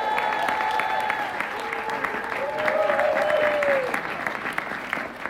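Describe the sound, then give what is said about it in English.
Applause from a church audience welcoming a guest preacher during a worship weekend: dense, steady clapping that holds at an even level throughout. “So y'all help me welcome up Trace Howard. Give it up for this man of God.”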